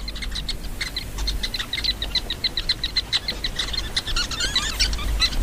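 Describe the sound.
Sociable weaver birds at their nest chirp rapidly and repeatedly in high, bright notes over a steady low rumble.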